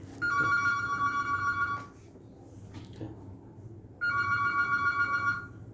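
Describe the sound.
A mobile phone rings during a prayer meeting: two bursts of bright, steady electronic ringtone separated by a quiet pause, over low background hum.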